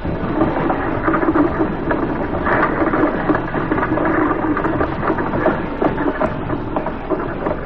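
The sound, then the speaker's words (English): A doctor's car passes a house on an October morning, heard as a dense, steady engine rumble with rattling mechanical clatter, loud and even throughout, with no voices. “I was out front mending a fence when Dr. Marne drove by.”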